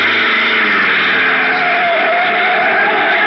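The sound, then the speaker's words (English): Steady engine drone of a black sedan climbing a curving mountain road into Puerto Rico's inland plantation country, a continuous even hum with no breaks and no voices. “a black sedan twists up the curving mountain road leading to the inland plantation country of Puerto Rico.”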